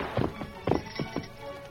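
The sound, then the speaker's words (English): Horse hooves on a trail give muffled, hollow clops in a loose, uneven rhythm, several soft thuds over a quiet background. “the Lone Ranger was riding up the trail toward the camp”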